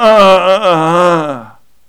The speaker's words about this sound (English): as I'm trying to unfold my body, the only response is to groan. There are no words. It's just this.